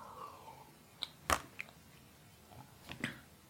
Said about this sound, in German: Und zwischendurch muss ich auch mal kurz was trinken.